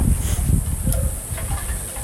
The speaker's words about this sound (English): It's a little windy. I'm outside right now. Hopefully this isn't crackling or anything for you guys.